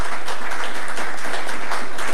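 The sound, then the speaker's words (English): A big round of applause for local doctors and their team, loud, dense clapping from an audience, many overlapping claps forming a thick, sustained roar at an even level. “I think we should give them a big round of applause.”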